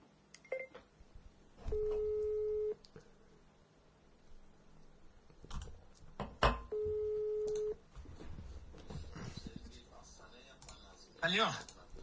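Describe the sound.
Outgoing phone call ringback: two steady, mid-pitched ring tones about a second long each, separated by a pause filled with voices and handling clicks, with more talk afterward.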